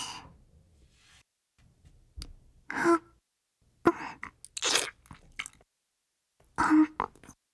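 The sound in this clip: Close biting and chewing sounds from a person's mouth: a few soft, wet crunches and squishes in separate bursts with near-silence between them.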